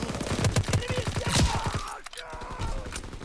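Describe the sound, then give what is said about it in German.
Submachine gun fire in a video game: rapid sprays of shots fired in fast bursts, with a short pause midway before the firing picks up again. “Spray and Pray ist halt saugut wieder. Mit SMGs.”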